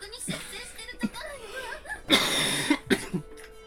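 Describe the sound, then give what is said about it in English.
Coughing from one person: a few short rough bursts, then a longer harsh run of coughs and two more sharp ones near the end, loud, with throaty vocal sounds between them. “That Jack Murphy voice is making me cough. I gotta have a cough drop, guys.”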